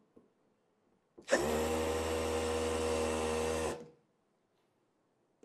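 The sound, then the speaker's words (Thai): A loud, steady motorized whir as a nut is tightened onto a clamp. It lasts about two and a half seconds, starts abruptly against near silence and stops with a short wind-down. “เสร็จแล้วผมก็ทําการยึดน็อตนะครับเข้าไว้กับก้ามปูเพื่อให้ได้ตําแหน่งนะครับ”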